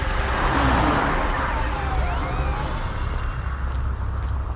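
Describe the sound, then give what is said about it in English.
A car drives off, its engine giving a loud, broad roar that eases slightly toward the end. Faint sliding, whining tones drift over the rumble. “Gordon saw the Batmobile drive off and smiled to himself.”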